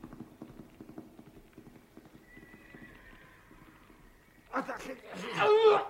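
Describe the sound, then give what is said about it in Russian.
Hoofbeats of a horse running away, a steady, rapid clip-clop rhythm that carries on for several seconds, then a loud whinny at the end. “Лошадь почувствовала свободу и побежала прочь от того места, где ворочался ком человеческих тел.”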